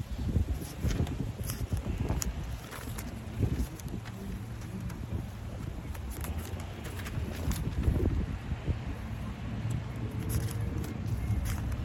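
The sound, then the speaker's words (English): Strong wind blowing outdoors, buffeting the microphone with a steady, rough low rumble and scattered gusty bursts throughout. “it's really windy out here, so give me one second.”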